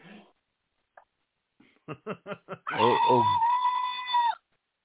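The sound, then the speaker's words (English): A scared goat squeals: a run of short, rapid bleating pulses leads into one long, loud, wavering cry that cuts off abruptly. “Goat squealing like a scared goat.”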